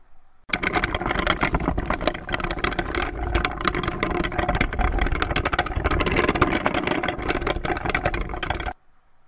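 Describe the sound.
A motorized cart idles with a loud, steady mechanical rattle. The dense chattering engine noise starts abruptly, runs unbroken for about eight seconds and then cuts off.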